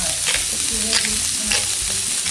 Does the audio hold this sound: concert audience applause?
no